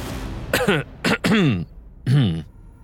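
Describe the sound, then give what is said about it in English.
A man leaning against a tree clears his throat in a few rough, voiced bursts, each with a falling tone, fairly loud and with no other sound around them. “From his position leaning against the tree, Siegmund cleared his throat.”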